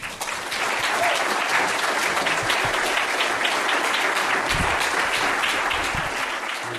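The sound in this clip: An audience applauds to welcome speaker Hugo Blanco at a talk on indigenous movements in Latin America. The clapping is loud, dense and sustained, holding steady before easing slightly at the end.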